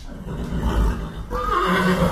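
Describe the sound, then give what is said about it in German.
Breeding horses whinny in a stable that holds about forty of them. A loud neigh rises in the second half over a steady, noisy background. “Ein paar Kilometer weiter stehen beim Ehepaar Catherine und Stéphane Ligny rund 40 Zuchtpferde im Stall.”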